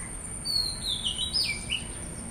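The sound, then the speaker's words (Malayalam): A bird calls in the background with a thin, high, warbling whistle that glides up and down. It carries on for the whole two seconds over a steady low hiss. “എൻ്റെ ബാക്ക്ഗ്രൗണ്ടിൽ ഇപ്പോൾ ഒരു പക്ഷിയുടെ ശബ്ദം കേൾക്കുന്നുണ്ട്”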